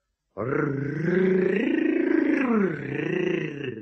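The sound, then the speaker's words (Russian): A tiger cub lets out a long, voiced growling roar meant to sound like a grown tiger. It is loud and sustained for over three seconds, with a wavering pitch that dips and swells, and it is heard alone. “Ну, а р-р-р, ты говоришь очень хорошо, совсем как взрослый тигр”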